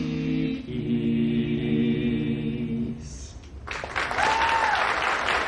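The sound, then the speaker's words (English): Crowd applause breaks out after four people finish singing a carol. Sustained harmonized voices hold for about three seconds and fade, then a loud, dense burst of many hands clapping fills the remaining seconds. “The crowd applauds.”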